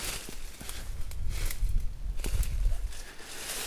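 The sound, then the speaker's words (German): Footsteps push through blackberry brambles in a forest at night, a steady crackling, swishing rustle of stems and leaves over soft low thuds of treading, broken by a few sharper snaps, fairly loud and continuous without speech. “Oh, ich gehe jetzt hier gerade durch Brombeersträuche.”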